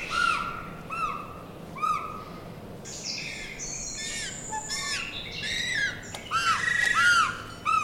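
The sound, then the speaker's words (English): Two penguin chicks at the Cal Academy of Sciences in San Francisco give plaintive begging cries, many high, squawking calls repeated in irregular bursts that crowd together toward the end. “You just heard the plaintive cries of two penguin chicks at the Cal Academy of Sciences in San Francisco”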